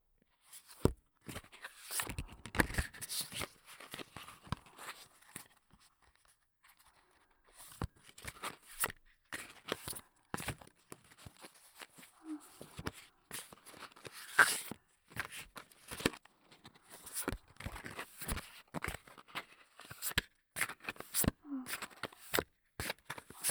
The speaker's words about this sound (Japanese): よし、左は欧米かとツッコミが入るオーバーハンドシャッフル。